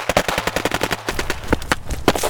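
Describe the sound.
Rapid gunfire: many sharp, loud shots fired in quick succession over a low rumble. The shooting continues through the whole stretch, with a few heavier blasts near the end and no talk.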